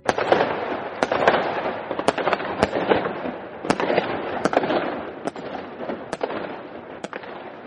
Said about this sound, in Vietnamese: phía sau tòa nhà đối diện kia đột nhiên một loạt pháo hoa bắn lên. Pháo hoa rất lớn, nở rộ trên không trung.